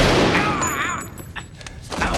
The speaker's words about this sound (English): Shoots Harry.